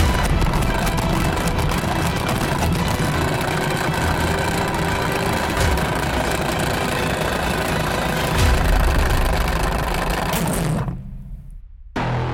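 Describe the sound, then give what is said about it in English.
An electric salad spinner whirs in a loud, steady, continuous drone for about eleven seconds, then cuts out abruptly near the end. “Why don't you take a turn this time to spin the salad spinner? All right. How do I spin it? Just press the button.”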